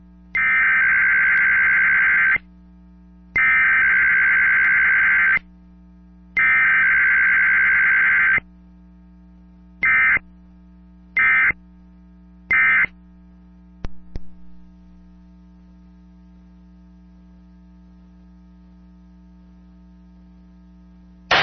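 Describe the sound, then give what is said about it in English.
A dial-up modem dials and connects: three long bursts of buzzy, mid-pitched tone, then three short ones and a brief click, all over a steady mains hum. “I hereby call to order another meeting of the Dial-Up Dudes. We still dial up to the internet, and we like it just fine.”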